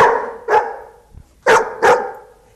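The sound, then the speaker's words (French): A dog barks in answer to questions put to it, giving a few short, sharp barks separated by brief pauses, loud and clear with no other sound around them. “2 aboiements veulent dire oui.”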